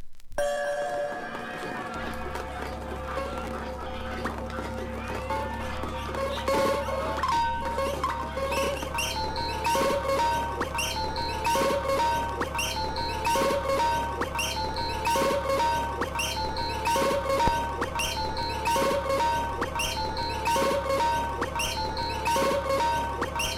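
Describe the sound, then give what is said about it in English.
Locked-groove loops play from a vinyl album, each short pattern repeating over and over. A steady rhythm of clicks and pulses runs over a constant low hum at an even level. “So what you have here basically is a bunch of loops, locked grooves.”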